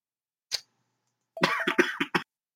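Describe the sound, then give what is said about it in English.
A coughing fit with throat clearing: one short cough, a brief pause, then a quick run of several harsh coughs in a tight cluster, with no talking. “I guess clear my throat coughing fit there.”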